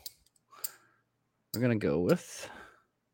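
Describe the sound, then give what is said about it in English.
Coins thicker than ordinary one-ounce pieces are set down, giving a couple of sharp, brief clicks that are soon followed by a louder breathy vocal sound. “So I'm gonna put these two. These are not your regular just 1 ounce coins.”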